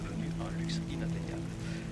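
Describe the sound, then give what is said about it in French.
Rain falling on a city street: a steady, dense hiss that holds without a break, with a low continuous hum underneath. “Il pleut. C'est bien.”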